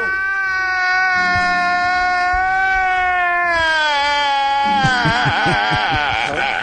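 A man sobs, a loud, sustained, high-pitched wail that holds steady and then breaks into a shaking, wavering cry near the end.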